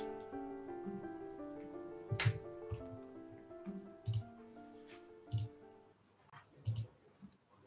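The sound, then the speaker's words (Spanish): Dice rolled during a tabletop role-playing game: a few sharp, faint clicks land at irregular intervals over soft, sustained background music. “por lo tanto, cuatro dados Corvus. Y dos de niebla.”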